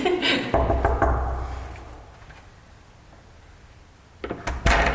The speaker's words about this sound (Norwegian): Jeg tror bare vi må banke på, fordi vi kan ikke eller kaste bort tennis.